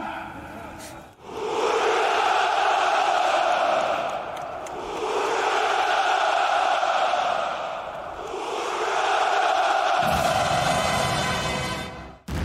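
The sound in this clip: Massed hurrah shouts from a crowd at the Victory Day parade on Red Square in Moscow, swelling in three long, sustained roars with short dips between them, loud and dense.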